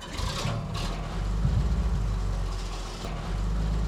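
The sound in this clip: A truck engine roars with a deep, steady rumble that swells slightly louder midway and carries on without a break, with no voices.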